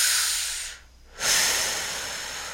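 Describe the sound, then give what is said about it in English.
A deep breath: a long, airy hiss of moving breath, a short lull, then another strong breathy rush that slowly fades. It is steady and soft, with no talking. “Do you want to just breathe?”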